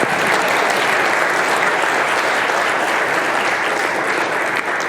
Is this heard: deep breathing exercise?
no